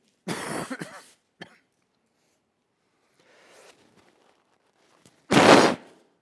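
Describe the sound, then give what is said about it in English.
Coughing from one person: a few harsh coughs near the start, a short single cough after them, then a faint rustle and one louder, longer cough near the end. “you could mute me back there, you know, when I'm coughing.”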